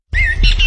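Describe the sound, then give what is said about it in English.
A bird calling in spring in southern Ontario: one short, loud, squawking call, bright and slightly wavering, heard alone. “Hear that? That's the sound of spring in southern Ontario. And if you'd like to hear more of it in your backyard, start with the right bird seed.”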